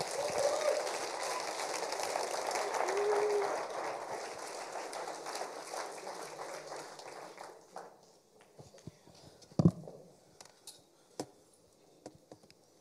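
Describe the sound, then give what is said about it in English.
An audience at a church service stands and applauds to welcome a speaker to the platform. Dense clapping runs for several seconds, then thins out into scattered claps and a few sharp clicks. “Can we be up on our feet and welcome Rochelle to the platform?”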